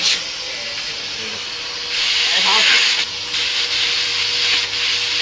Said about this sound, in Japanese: これもじゃあ、掃除機で、